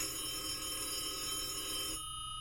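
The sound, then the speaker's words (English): A telephone rings in a video game: steady, continuous electronic ringing that holds at an even level for about two seconds, then its upper brightness drops away near the end. “The fucking phone is ringing. I can't answer.”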